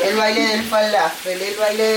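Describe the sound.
Falafel frying in bubbling oil gives a steady sizzle that runs through the whole clip, partly masked by a voice talking over it.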